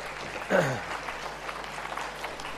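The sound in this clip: Applause for a couple, James and Gillian, a soft, steady patter of clapping that follows a brief voice near the start and carries on evenly to the end.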